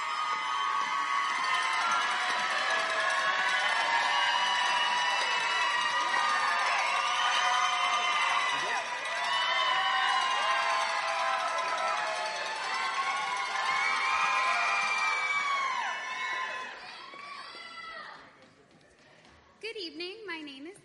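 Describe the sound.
A crowd cheers, shouts and whoops for ten Eagles contestants being welcomed, a long loud roar of voices and clapping that holds steady before dying down near the end.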